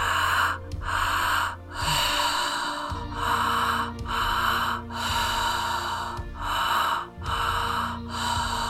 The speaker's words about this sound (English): So start to breathe deeper into that belly space, allowing all of the fear to be released